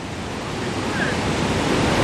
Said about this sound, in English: That incredible sound you can hear, that thunderous sound, is the sound of the Victoria Falls here on the border of Zambia and Zimbabwe in southern Africa.